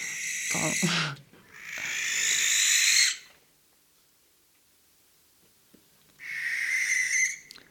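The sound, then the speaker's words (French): Barn owl screeches: three harsh, hissing, breathy calls. A short one is followed closely by a longer one, then a long silence before the third long screech. “Alors après on va vous parlez de l'effraie des clochers.”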